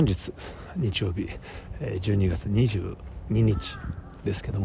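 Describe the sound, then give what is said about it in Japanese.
Crows caw repeatedly outdoors near a museum gate in Tokyo, sounding as harsh bursts beneath a man who talks steadily over them. “カラスが鳴いている”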